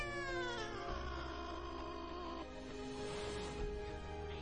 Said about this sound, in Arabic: صحيت على صوت القطة جاي من بره، صوتها غريب وعالي زيادة عن اللزوم.